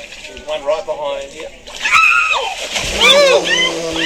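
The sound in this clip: Water splashing and churning as a woman is dragged underwater, with shrill, high cries and raised voices over the rough, noisy sloshing.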